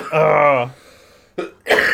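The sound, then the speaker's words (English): Throat clearing and coughing from a throat dried out by vaping: a drawn-out, voiced, raspy clearing followed after a pause by two short, sharp coughing bursts. “I'm hitting a vape, and the vape is like drying my throat, fucking killing it.”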